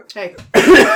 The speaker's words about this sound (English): I'm dying. I need cough drops.